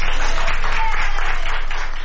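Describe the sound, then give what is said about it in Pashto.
Doctors and nurses at a hospital in Madrid, Spain, applaud a 104-year-old woman who recovered from coronavirus. Dense, steady clapping runs continuously with a rapid fluttering texture and no break. “د اسپانیا په پلاسمینه مادرید کې ډاکټران او نرسان هغې مېرمنې ته چکچکې کوي چې تر 100 کلونو تیره ده او له کورونا رغېدلې ده.”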